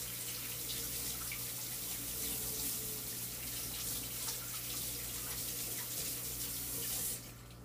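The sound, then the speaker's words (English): Water from a running tap pours steadily as an apple is washed beneath it, a constant loud rush that cuts off abruptly just before the end. “So I'm washing the apple.”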